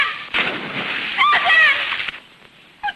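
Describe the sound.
Splash of a man diving from a branch into a river: a broad, loud rush of water lasting about two seconds, with a voice briefly heard over it, then a short splash at the end.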